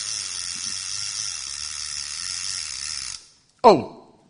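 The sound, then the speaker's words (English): Ratchet mechanism whirring as a steady buzzing rattle for about three seconds. It cuts off abruptly and is followed by a short, loud, falling swoop. “ratchet.”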